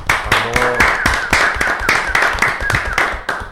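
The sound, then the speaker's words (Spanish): Applause welcoming a tango band, many quick, sharp hand claps in a steady patter, with a brief voice near the start. “con un fuerte, fuerte, fuerte, fuerte aplauso”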